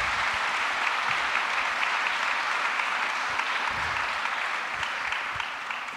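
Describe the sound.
Applause from an audience welcoming the panellists at a public discussion, a steady, dense wash of clapping that holds evenly and eases slightly at the very end.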